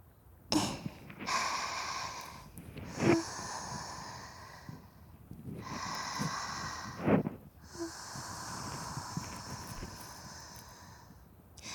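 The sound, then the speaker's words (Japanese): Damp oshibori hand towel wiping inside the ear in close ASMR style, with quiet, soft rubbing swishes drawn out in several long strokes separated by brief pauses. “お耳の中もおしぼりで拭いていきますね。”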